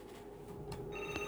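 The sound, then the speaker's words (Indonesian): A telephone rings in brief, steady electronic tones that grow a little louder toward the end, with no talking over it. “Woy lah diangkat ya Allah, mano nih teleponnya nih.”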